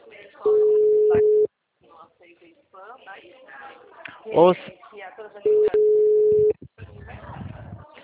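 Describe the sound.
A telephone call's ringing tone sounds twice as steady, mid-pitched tones, each lasting about a second. People talk in the gaps between the two rings.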